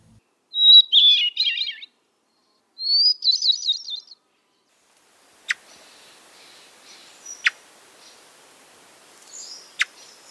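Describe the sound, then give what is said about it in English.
Thrush song at high elevation: two bright, warbling high-pitched phrases, each a little over a second long, with a short pause between them. A few sharp, faint clicks follow over a soft hiss. “And equally as lovely is our next and last of the thrushes. And you're heading up to higher elevation, you're treated with the beautiful”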